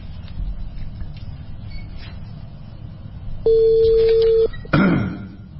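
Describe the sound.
A telephone call being dialled: quiet rustling background, then a single steady electronic tone lasting about a second, followed by a short noisy burst.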